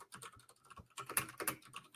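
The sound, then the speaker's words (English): Typing on a tablet touchscreen: a rapid, uneven series of sharp taps and clicks, louder bursts in the middle, with no voices. “Having a hard time spelling? This tablet is hard to type on.”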